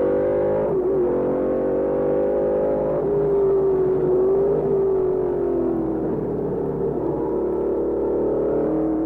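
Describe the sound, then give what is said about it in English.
A Lola race car's engine on a steep, tricky section of a racetrack, a sustained loud whining drone whose pitch dips and recovers several times, heard alone without voices. “What's it like to change the old Rolls Royce into Jackie Stewart's brand new Lola? Look, feel for yourself. This is a very tricky part, really very steep here.”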